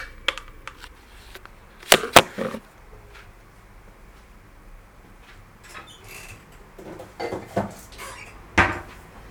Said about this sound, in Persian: ظرفی رو انتخاب کردم که همچین دری داشته باشه که بتونم راحت پمپاژ کنم. ببینم میتونم صدا رو بگیرم براتون یا نه. اینجا یه پمپ.